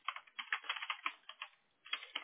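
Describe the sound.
Quick typing of a search keyword on a computer keyboard: crisp, rapid key clicks in bursts, broken by a brief pause before a final flurry of keystrokes.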